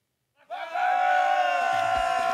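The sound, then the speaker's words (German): Metal fans at the Wacken heavy metal festival in Kreis Steinburg shout together in one sustained collective yell that swells in quickly and then holds steady and loud to the end. “Die Menschen sind laut, auf den Bühnen ist es noch leise, in Wacken im Kreis Steinburg.”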